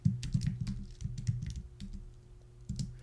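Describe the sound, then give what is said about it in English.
Typing on a computer keyboard, a faint run of many quick, irregular key clicks in short bursts, with a brief pause before a final few taps. “Kathy's last name was Majewski. Type that in here while I'm thinking of it.”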